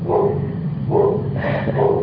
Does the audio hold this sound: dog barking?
yes